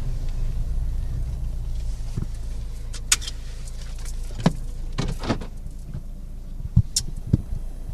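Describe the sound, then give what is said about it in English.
Car pulling over: low, steady engine and road rumble, with a few light clicks and knocks toward the end. “Pulling over.”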